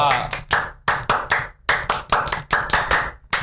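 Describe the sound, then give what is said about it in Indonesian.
Scout clap (tepuk pramuka): many sharp hand claps in quick rhythmic groups separated by short gaps, with voices alongside the clapping. “Tadi bukan salam pramuka tapi tepuk pramuka.”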